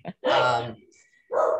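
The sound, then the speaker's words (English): Dogs bark indoors during a plumber's visit: a few loud, harmonic barks, the longest held for about half a second, separated by short pauses. “And I do apologize for my dogs. We have a plumber here today.”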